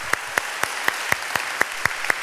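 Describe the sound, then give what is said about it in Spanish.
A church audience claps in unison, nine sharp, evenly spaced claps on a steady quick beat over a constant background hiss. “yo les pido en esta mañana que le demos un aplauso al Espíritu Santo como no ha habido otro en Convivencia Cristiana. Que se pongan rojas tus manos.”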